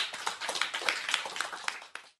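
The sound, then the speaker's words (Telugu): Many children clapping together for classmates who just sang a flag song, a dense run of quick overlapping claps that stays fairly steady for about two seconds, with no talking over it. “మరి పిల్లలు వీరందరికీ ఒకసారి claps.”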